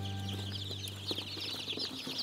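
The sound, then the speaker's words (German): Many newly hatched chicks peep at once in a dense, continuous, high-pitched chorus, with a steady low hum underneath and no voices. “Nur 2 Tage bleiben die Küken bei Christine. Dann bringt sie sie in ihr neues Zuhause nach Usedom.”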